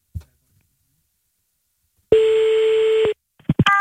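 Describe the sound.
A telephone ringback tone on an outgoing call: one steady, buzzy tone lasting about a second, followed by a few short beeps. No one talks.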